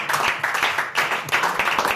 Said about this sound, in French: N'applaudissez pas ça, voyons.